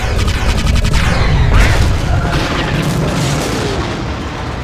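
Starship weapons firing in a space battle: a loud, sustained barrage of heavy booms and crackling blasts that forms a dense, continuous rumble with no talk.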